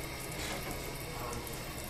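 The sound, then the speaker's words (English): Tap water running into a sink as a man washes his hands in a restroom with cubicles and a mirror, a quiet, steady gushing stream with no clear breaks. “a tall blonde man comes out of a cubicle and washes his hands”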